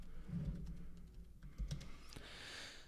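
Soft typing on a computer keyboard during a search on Google, a quick run of faint, irregular key clicks.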